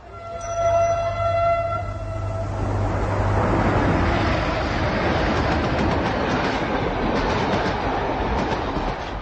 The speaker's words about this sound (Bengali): ২৫ তারিখ সকাল ৮টা ট্রেনে রিপন সাহেব এবং তার স্ত্রী রওনা দেয় ভারতে।